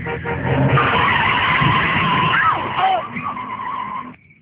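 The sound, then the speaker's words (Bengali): A car braking hard from full speed, its tires screeching in a long, loud skid that holds for several seconds and then trails off. “হঠাৎই driver গাড়ির break কষল।”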